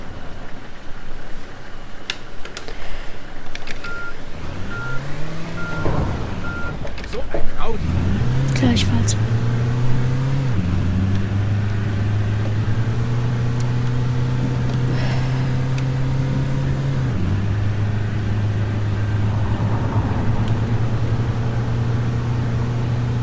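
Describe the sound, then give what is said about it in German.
A car engine drives and accelerates, its droning hum climbing in pitch in a few surges before holding at steady, stepped pitches that shift as speed changes, running continuously. “ich gebe Gas. Ich muss noch mehr Gas geben.”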